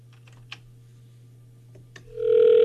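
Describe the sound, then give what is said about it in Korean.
Ringback tone of an ordinary landline call being placed: a couple of faint clicks, then a loud, steady ringing tone sets in and holds to the end. “자, 신호 갑니다. 김송현님께 전화하고 있어요. 일반 전화.”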